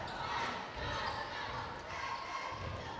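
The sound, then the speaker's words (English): A basketball dribbled on the court during a high school boys' game, heard as a few dull, low thumps under steady, loud crowd noise. “Crossover dribble”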